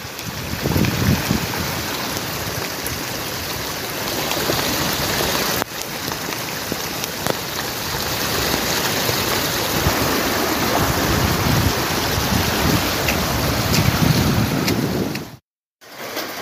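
Continuous heavy rain falls while someone walks outdoors on a cross-island trek on foot in Mauritius. A dense, steady hiss fills the whole clip, with a brief drop near the end and no voices.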